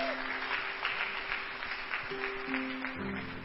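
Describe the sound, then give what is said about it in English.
Church audience applauding to welcome a pastor: continuous, fairly faint clapping from many hands throughout, with a steady held tone running beneath. “As we welcome Pastor Fumi, come on, let's put our hands together.”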